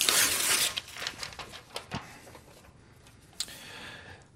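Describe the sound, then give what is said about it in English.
Paper ripping as an envelope is torn open: a loud burst of noisy tearing at the start, then a few softer crackles and rustles that fade out. “Let me open the envelope.”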